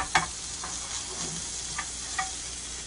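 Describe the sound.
Spicy sausage sauce for gnocchi sizzles in a pan with a steady, quiet hiss, broken by a few sharp ticks and clicks of stirring.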